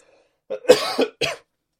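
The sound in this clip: Coughing from a peanut stuck in the throat: a short cluster of a few harsh, throaty coughs, heard alone with silence before and after.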